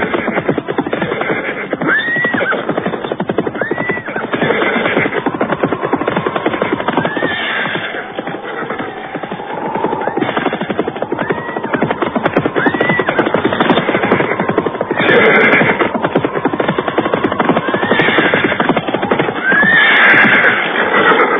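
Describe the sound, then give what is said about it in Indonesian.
Hoofbeats of a riding party's horses arriving at the foot of Jaban hill: a steady clip-clop runs throughout while several neighs and whinnies rise over it, loud and continuous. “Tak seberapa lama kemudian, rombongan berkuda yang dipimpin para pengalasan Weneh Suka itu pun sampai di kaki bukit Jaban.”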